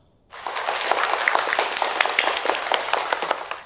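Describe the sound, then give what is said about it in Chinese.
Applause from a class of students congratulating the winning group at a school award announcement: dense, steady clapping that starts abruptly and holds at an even, loud level to the end, with no voices over it. “掌声祝贺他们。”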